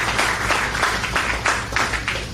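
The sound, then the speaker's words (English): An audience applauds an announced upgrade of a fairground's electrical systems: dense, steady clapping from many hands at a fairly loud level throughout. “getting applause for electrical wires is one of our great accomplishments.”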